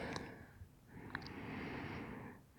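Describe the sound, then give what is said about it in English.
Soft breathing, faint and airy, swelling into one long breath that fades out after a second or so, with a couple of tiny clicks. “to hear your soft breathing”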